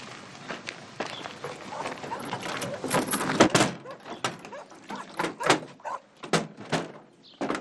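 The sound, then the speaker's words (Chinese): A door is opened amid a flurry of sharp knocks, clacks and shuffling thumps. The sounds grow louder toward the middle and continue as separate clattering hits. “把门打开。”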